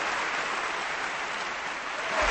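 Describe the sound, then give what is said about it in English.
Audience applauding a polka orchestra: a continuous wash of many hands clapping at a steady, fairly full level from start to finish. “They deserve a round of applause.”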